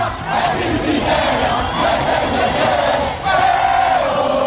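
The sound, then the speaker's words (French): Football supporters celebrating in the streets of Casablanca, dancing and chanting: a dense, loud roar of crowd voices that continues throughout, dipping only briefly once. “Dans les rues de Casablanca, c'est l'euphorie. Les supporters dansent, chantent.”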